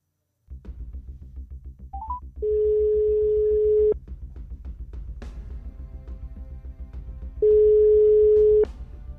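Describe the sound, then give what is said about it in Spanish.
Ringback tone while placing a phone call: a couple of brief beeps, then two long, steady, mid-pitched tones separated by a pause, over a faint low hum. “Muy bien, pues llamando a Nicole.”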